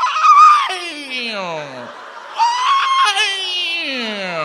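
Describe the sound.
A person cry-squealing during a hallway fight on a reality show: a high, whiny, wavering voice in two drawn-out squeals, each sliding downward in pitch, loud and alone.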